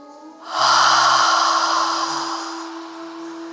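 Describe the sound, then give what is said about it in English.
One long, deep inhale: a loud, airy rush of breath that begins abruptly and slowly fades over about two seconds, with a faint, steady musical tone humming underneath. “Another deep breath in.”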